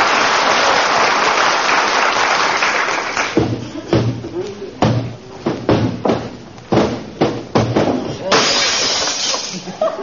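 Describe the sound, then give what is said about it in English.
A mirror slips from a hand in a hallway and shatters: a long, loud crash of breaking glass, then a run of sharp, scattered clattering bursts as shards settle. “I was just cleaning the mirror in the hall, kiddo. Slipped out of my hand.”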